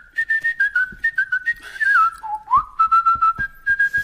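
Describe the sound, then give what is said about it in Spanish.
Lively melodic whistling runs as a rapid string of short, bright notes. The pitch steps up and down with a brief dip and swoop midway, and the whistle is heard alone, with no talking. “ponos unos silbitos, no sé por dónde van.”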